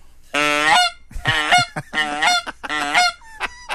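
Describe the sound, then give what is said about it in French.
A person imitates Canada goose calls in a rapid series of harsh, nasal honks with short gaps between them. A thinner, higher call follows at the end. “Puis il y a des pièces où, pendant la musique, pendant une pièce, il y en a une qui est attribuée aux outardes. Ben, fait que ça commence à peu près comme ça.”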